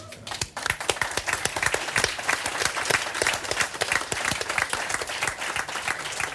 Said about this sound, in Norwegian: Jeg fikk applaus til at jeg var veldig klok.